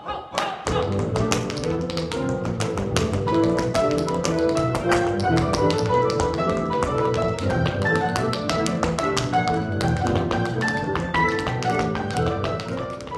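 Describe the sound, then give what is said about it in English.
Tap dance steps from a hoofer's line in a concerto: rapid, sharp clicking taps over continuous orchestral music, loud and steady for the whole clip. “In Capello's concerto, the hoofer's line sounds like this.”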